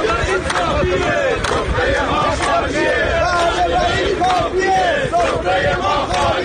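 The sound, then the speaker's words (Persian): Telecom company retirees at a protest rally in Ahvaz shout and chant together as a loud crowd, a steady wall of overlapping voices with rhythmic rising calls throughout. “و صدای بازنشستگان شرکت مخابرات در اهواز.”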